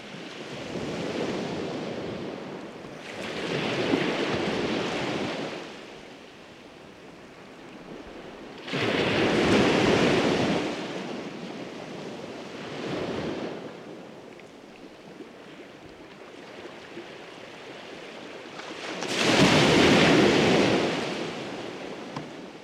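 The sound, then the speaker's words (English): Waves wash onto a beach in West Clare, Ireland, in a steady breaking roar. Several broad surges swell and recede over a constant hiss of surf, with no voices. “During the next 4 minutes we're going to hear the sound of various different beaches around West Clare. We start off with Kappa.”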